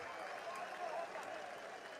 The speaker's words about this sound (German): Und jetzt sehen wir hier also gerade nochmal den Applaus in Richtung der Ränge. Und die Stimmung also hier ordentlich. Da gibt es nochmal Applaus von dem Blau-Weißen.